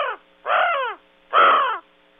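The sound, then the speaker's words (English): Harsh raven calls: three hoarse, croaking caws, the first cut short, each a rough, descending cry separated by brief silences. “If you'll allow me to indulge you with a raven call.”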